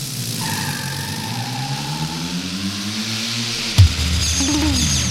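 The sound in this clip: Old motorbike engine revving in a steady, throaty drone whose low harmonics slowly climb in pitch, with a sharp knock near the end before the engine noise carries on.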